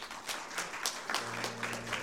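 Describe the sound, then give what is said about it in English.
A church audience claps hands in praise: many overlapping, irregular claps, moderately loud and sustained across the whole moment, with a low steady tone underneath in the second half. “Give God a hand clap of praise.”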